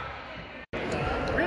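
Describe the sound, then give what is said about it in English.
A basketball is dribbled before a free throw, its bounces thudding under a constant murmur of crowd noise, broken by one abrupt moment of silence. “Hunt spins the ball, dribbles a couple times, takes another look, shoots, and that one's in.”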